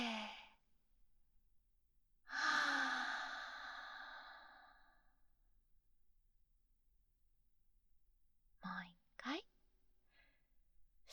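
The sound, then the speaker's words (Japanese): Slow breathing in and out, a soft inhale followed by a long, drawn-out exhale that fades away, then a quiet gap and a few brief voice sounds. “息を吸って、吐いて、”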